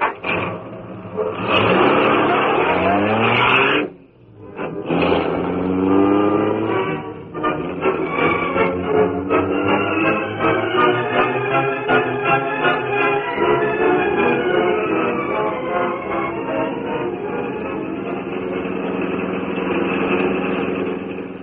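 A car engine runs steadily as the car is driven, a low rumble with layered humming tones that dips briefly near the start, then holds at an even, fairly loud level.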